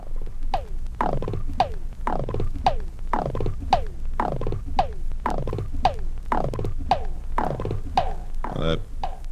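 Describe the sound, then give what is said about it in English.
Popping strokes on a small Indian tabla, about a dozen evenly spaced notes in a steady rhythm, each one bending downward in pitch after the hit. “Popping sound that you hear was created with this small Indian tabla.”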